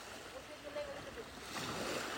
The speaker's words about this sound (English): No, he finna splash water on you.